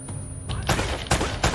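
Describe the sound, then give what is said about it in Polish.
Gunfire in a video game shooter, with several loud volleys of rapid shots cutting through a constant dense, noisy bed of battle sound. “Kurde, ten tu we mnie strzelił jakiś.”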